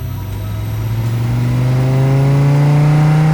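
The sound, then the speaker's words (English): A Jeep engine driving away, a steady mid-pitched engine drone whose pitch climbs smoothly as it accelerates and grows slightly louder, with no voices. “Then I went to my Jeep and drove away.”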